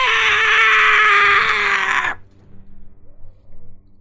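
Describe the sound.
A person's voice imitates a screaming metal bird struck by fire damage in a role-playing game: a loud, harsh shriek held for about two seconds that cuts off abruptly, followed by faint low sounds.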